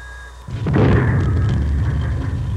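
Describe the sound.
An artillery gun fires a single shot. The loud, abrupt boom follows a quieter stretch and trails into a heavy, sustained low rumble that holds to the end, with no voices.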